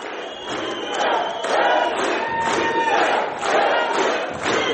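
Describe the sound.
Crowd of supporters greeting Kyrgyz presidential candidate Adakhan Madumarov at a meeting with migrants in Moscow, shouting and cheering in loud, rhythmic surges that repeat steadily throughout.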